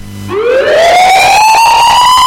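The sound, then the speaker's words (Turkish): An ambulance siren wails, a single loud tone that sweeps steadily upward in pitch and holds high, with no voices. “Siren sesi duyduğunuzda önce ambulansın hangi yönden geldiğini anlamaya çalışın.”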